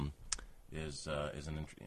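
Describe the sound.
Handling noise from a microphone being fiddled with: a sharp click near the start, then rubbing and knocking as a man talks over it.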